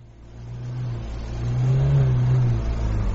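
Car engine revving in a garage, worked on by young men: the motor swells twice, and the second rev climbs higher and holds longer before easing off. No voices are heard.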